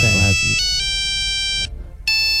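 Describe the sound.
A Siemens mobile phone plays its ringtone melody: a run of sustained, bright electronic notes stepping through a tune, with a short gap before a final note rings. A voice speaks briefly over the opening.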